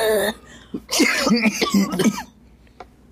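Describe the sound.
Harsh, repeated hacking coughs after inhaling homegrown cannabis smoke come in a rough cluster of bursts with throaty, raspy bursts of breath, then trail off into near quiet.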